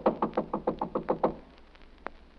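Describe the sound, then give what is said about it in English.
Knocking on a hotel room door: a quick, evenly spaced run of firm knocks on wood that stops abruptly, followed by near silence. “No one there. Knock again, dear.”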